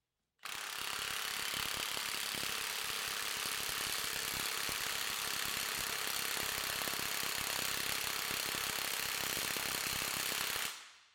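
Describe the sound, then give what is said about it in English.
A Milwaukee impact wrench on mode 2 hammers steadily as it tightens grade 5 and grade 8 bolts. The loud, rapid metallic rattle starts abruptly and runs unbroken for about ten seconds before cutting off. “Let's see it with 10 seconds of mode 2 on that Milwaukee, shown on screen in yellow.”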